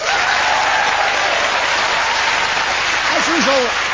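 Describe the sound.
Studio audience applause greeting the four panellists of a panel game, a thick, constant roar of clapping throughout, with a brief voice cutting through near the end.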